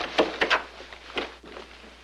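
A door as someone walks out of a room: a few quick knocks and thuds, then a short latch-like clunk and a fainter settling sound, over a steady hiss.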